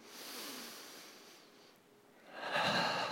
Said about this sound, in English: Big breath in.